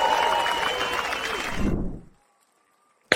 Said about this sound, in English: Ladies and gentlemen, put your hands together